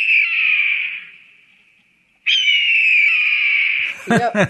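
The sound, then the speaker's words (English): A red-tailed hawk gives two loud, high, drawn-out screams, the kind used in movies for raptors. The first fades away slowly, and the second starts abruptly and holds steady. “the eponymous eagle noise. Yeah, the red-tailed hawk is the sound used for movies and TV to represent every single raptor.”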